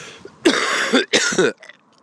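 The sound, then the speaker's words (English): A horse snorting: two loud, breathy bursts of noise in quick succession, each about half a second long, followed by faint softer sounds. “The other horse has just snorted, if that's the right word.”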